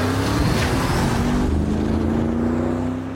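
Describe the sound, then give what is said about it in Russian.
Car engine roaring as the vehicle drives past at full speed on a road after dark, headlights on: a loud, steady drone with an even engine hum that eases off slightly at the end. “Машина на полном ходу проезжает мимо мужчин.”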